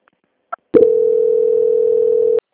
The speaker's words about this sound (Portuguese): Só um minutinho, aguarde na linha que eu já faço a transferência aqui. Transferência.